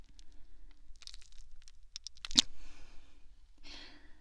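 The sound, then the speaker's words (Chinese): A thin boot heel is pulled out of a pierced eyeball: a sharp, wet, crunchy tearing squelch stands out from faint scattered crinkles and clicks, with soft rustling afterwards. “嗯，这只眼睛就这样被我的鞋跟贯穿了呢。往外拔着试试，看能不能把一整个眼球都带出来。”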